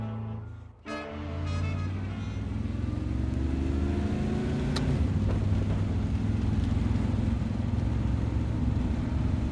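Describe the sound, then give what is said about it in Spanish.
Engine drone of a company van driven carefully over a mountain pass in heavy snowfall and strong wind: a continuous low rumble with broad rushing noise, after a brief dip at the start. “Bajo una intensa nevada y un fuerte viento, nuestro protagonista, Kaich, conduce con mucho cuidado su vehículo.”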